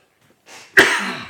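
A single sharp cough after something went down the wrong windpipe: a soft breathy onset, then one abrupt harsh burst that trails off into a raspy, fading tail.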